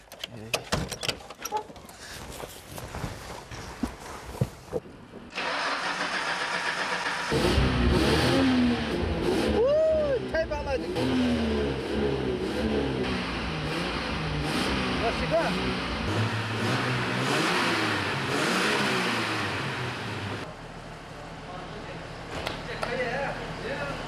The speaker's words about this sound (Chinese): 我能不能上去塞一塞油门？ 发动， 一下声音。 发动，发动。